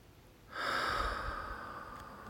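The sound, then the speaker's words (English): A full, deep breath comes in as a breathy hiss that starts suddenly and holds steadily for about two seconds. It is heard alone, with no talk. “I invite you to take in some nice, full, deep breaths.”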